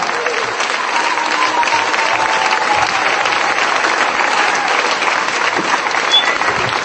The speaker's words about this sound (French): Let us clap to the Lord. Acclamons le Seigneur.